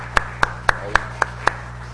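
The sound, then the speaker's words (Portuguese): Six evenly spaced, crisp hand claps sound at a ceremony granting honorary citizenship of Ouro Preto to a professor. The sharp, bright claps fall in a steady, measured rhythm and stand out clearly over a quiet background. “Salve palmas aí.”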